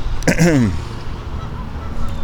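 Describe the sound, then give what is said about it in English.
A goose honks at a pond outdoors: one short, nasal, harmonically rich call near the start, then the call stops and only quiet outdoor background remains. “There's some other geese right over here.”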